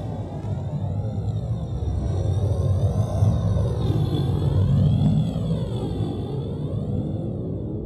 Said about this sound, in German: Wir durchbrechen jetzt die Atmosphäre!